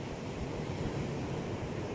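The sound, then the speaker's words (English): Ocean waves washing in a continuous broad rush of surf, even and fairly quiet throughout, with no distinct breaks or voices. “And then I'll quiet down the ocean for me.”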